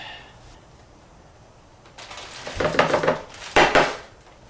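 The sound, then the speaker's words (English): Stirring a mix in a bowl with a utensil. After a quiet start, a few loud bursts of clattering scrape follow, with no voices. “Okay, remember you're stirring this in. Slowly.”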